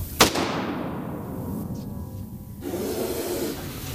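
A single gunshot fired at a shooting target, a short sharp crack with a fading tail, rising out of faint, low background noise.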